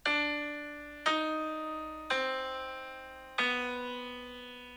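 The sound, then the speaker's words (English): A four-note musical motif, D, E flat, C, B, is played with evenly spaced notes, each struck cleanly and left to ring and decay before the next, with no voices. “And in German, S is E flat and H is B natural, and you get DSCH, which sounds like this.”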